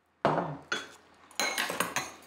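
Dishes and cutlery clinking as food is served into bowls at a family dinner: several sharp clinks and clatters spaced unevenly, with short scraping rattles between them, quiet and without talk.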